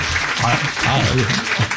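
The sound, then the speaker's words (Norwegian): A small round of applause: scattered, fairly brief clapping with voices talking over it. “Liten applaus for det.”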